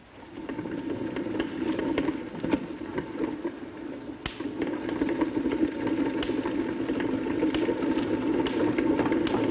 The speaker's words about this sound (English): You can see that as I slowly rotate the crank, this belt is moving. And then if I rotate the crank a little faster, you will see a spark jumping between this wire mesh and this ball over there.